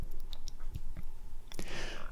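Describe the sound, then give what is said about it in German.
Wet, clicking lip smacks come as a frail, seriously ill elderly woman moistens her dry, pale lips with her tongue. The soft, irregular mouth clicks and smacks are scattered over a low background. “Mit der Zunge befeuchtet sie ihre trockenen und fahlen Lippen. Dabei entsteht ein schnalzendes Schmatzen”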